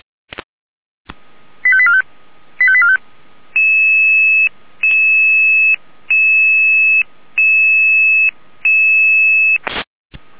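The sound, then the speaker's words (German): An emergency dispatch alert tone for a rescue callout. A click comes first, then two short warbling beeps, then five longer steady electronic tones separated by brief gaps, and a final short burst. The sound is loud and clean, with no voices. “Alarmierung.”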